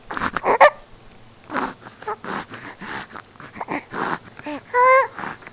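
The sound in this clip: A female dog wheezing and snorting, with several rough, uneven breathy bursts and a high, whiny tonal squeal near the end, heard alone without talk.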